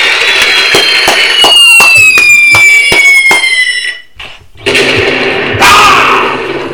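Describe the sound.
Bomb sound effects: whistles falling in pitch over a run of sharp, loud bangs, then a brief dip before a broad, roaring blast.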